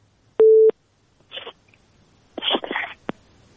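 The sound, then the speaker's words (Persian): A single steady telephone tone as a call fails to connect, followed by a few short noisy bursts. “بله متاسفانه تماس ما درست برقرار نشد”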